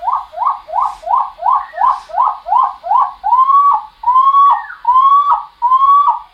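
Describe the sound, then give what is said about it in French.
Skylark song played from a tape recorder: nine rapid, evenly spaced chirping notes, then four longer whistled phrases, clear and loud with no voices. “Alors, je vais arrêter et on va l'écouter encore ralenti une fois en 9.5 sur l'autre magnétophone à côté. L'alouette des champs, c'est celle qui chante”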